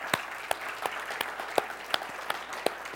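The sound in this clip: A church audience applauds: steady, moderate clapping with sharper individual claps popping out every half second or so, with no voices.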